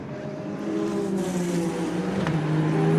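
GT3 race cars battling for the lead of their category in a race: a loud, steady engine drone with sustained tonal notes that shift slightly in pitch, growing somewhat louder after the opening second.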